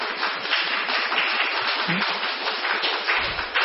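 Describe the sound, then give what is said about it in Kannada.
At a devotional gathering, an audience claps loudly in a dense, steady patter that lasts throughout. “ಜೋರಾಗಿ ಚಪ್ಪಾಳೆ ಹೊಡಿರಿ”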